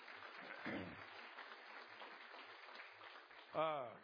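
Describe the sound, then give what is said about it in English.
A church audience applauds in soft, continuous clapping, with voices briefly rising over it near the start and again near the end. “Yes, that deserves a round of applause.”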